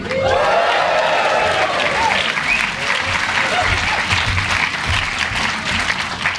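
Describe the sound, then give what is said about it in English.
A crowd of audience members whoops and cheers on request at a live event, mixing loud, continuous applause with shrill rising whoops, steady and dense throughout. “I heard what sounded like a whoop there, and I kind of enjoyed it. So it's really nice to be back again here amongst people. So I'm going to ask you to do that again, because it was really good for me.”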